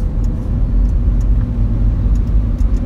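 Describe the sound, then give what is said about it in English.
A car is driven over the speed limit, its engine and road noise forming a loud, steady low rumble that stays even without a break, with no voices. “I am driving over the speed limit. I need to slow my butt down before I get a speeding ticket.”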